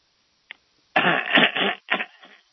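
Someone on a phone call clears their throat in a rough, gravelly rasp, with a short click just before. The first long scrape is followed by a shorter second one that trails off.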